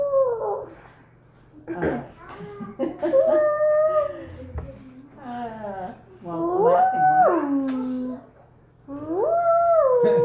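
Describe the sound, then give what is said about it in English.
People imitate a loon's call, taking turns with a few long, wavering voiced howls that swoop up and down in pitch, separated by short pauses, over a low steady hum. “Some pretty interesting loon sounds.”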